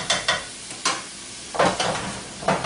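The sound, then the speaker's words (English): Food sautéing over high heat in a shaken pan, sizzling steadily and broken by about six brisk bursts of stirring and tossing, with no voices. “So all we're going to do is saute this over high heat, and it'll take 1 to 2 minutes to cook. And I tend to like it a little brown.”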